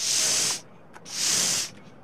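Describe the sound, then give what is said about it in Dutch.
A person blowing or sniffing air makes two strong, breathy hissing bursts, each about half a second long, separated by a short pause, with no talk around them. “Oh, je bent even het Lisserwegviaduct aan het opsnuiven. Aan het opblazen.”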